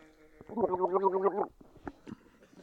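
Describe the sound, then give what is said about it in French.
A person gargling liquid with the head tilted back gives a wet, bubbling gurgle of about one second, rough and strongly voiced, followed by a few faint wet sounds. “Les gargarismes, c'est quand vous prenez un liquide, que vous le mettez dans votre bouche, que vous n'avalez pas, et qu'ensuite vous penchez la tête en arrière, vous ouvrez votre bouche, et que vous faites un truc qui ressemble approximativement à”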